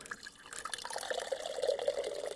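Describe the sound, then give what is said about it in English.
Water is poured into a glass jar to make a snow globe, a faint, steady trickle with light splashing and bubbling that keeps going without pause. “And while that's drying, we're going to fill this jar up with water.”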